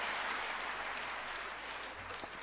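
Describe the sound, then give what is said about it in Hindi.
Applause from an audience welcoming an elderly guest at a DVD release event, a steady wash of clapping that holds throughout and fades slightly toward the end. “विमोचन stable mind वाले दादी जी कर रहे हैं और जोरदार करतल ध्वनि से हम दादी जी का स्वागत करते हैं”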